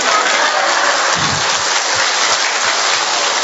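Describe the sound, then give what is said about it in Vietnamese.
Dense audience applause, many hands clapping in a steady, loud, rain-like patter that holds at an even level from start to finish. “Vỗ tay đi.”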